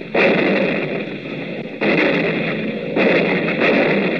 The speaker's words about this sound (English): Predictor, on target. Here we go, ladies and gents. Fire.